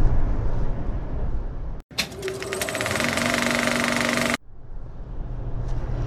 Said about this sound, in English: It is approximately about 11:35, and I'm on the freeway driving home